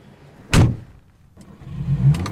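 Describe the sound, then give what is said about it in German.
A car door shuts with a single sharp thud, then a low engine rumble builds and carries on steadily as the car gets going. “Da vorne steht mein Auto. Na komm, wir fahren eine Runde.”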